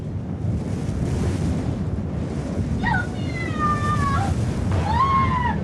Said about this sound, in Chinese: 哎呀，咋又起风了？哎呀，赶紧把炸药包和雷管箱子固定好，别让风吹走了。